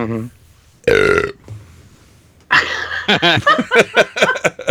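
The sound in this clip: One loud, drawn-out belch after a quiet moment, followed by people laughing and talking.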